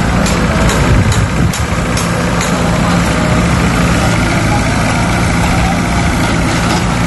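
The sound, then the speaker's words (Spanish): Construction work at a port gives a loud, continuous engine rumble like heavy machinery idling. It stays steady throughout, with a few brief knocks in the first seconds. “Sonaban este sonido de las obras porque se están construyendo allí también nuevos espacios para poder”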